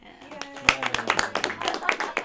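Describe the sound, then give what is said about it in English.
Several people clap in a meeting room as someone walks in: quick, sharp, uneven claps that build into a loose patter over about two seconds, with voices heard alongside. “We should clap when she walks in.”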